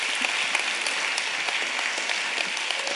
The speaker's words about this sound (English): Just put your hands together for her.